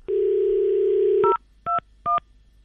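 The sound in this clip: A telephone being dialed: a steady dial tone holds for just over a second and is cut off by three short keypad beeps in quick succession.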